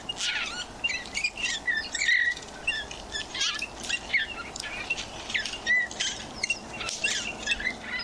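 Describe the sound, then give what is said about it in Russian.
Eurasian bullfinch song: many short whistled and chirping notes in an irregular, broken sequence, moderately loud over a faint background hiss. “Вот песня снегиря, кстати, звучит совершенно по-другому. Это такой грустный-грустный свист, и очень хочется птичку пожалеть сразу.”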